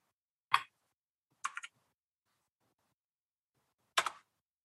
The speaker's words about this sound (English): I'm going to have to type this in these for whatever reason. My macros are not working.